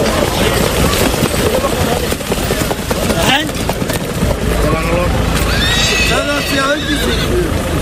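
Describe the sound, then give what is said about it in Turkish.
Ambling horses in a traditional Turkish race on a sand track: loud neighing and whinnying over clopping hooves, mixed with voices and dense crowd noise throughout. “Bu sefer kum pistlerde rahvan atlar koştu. 130 jokey ve at kıyasıya yarıştı.”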